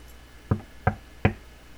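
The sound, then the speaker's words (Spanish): Three sharp knocks on a house door, evenly spaced and clearly separated, standing alone against a quiet background. “Alicia llama a la puerta”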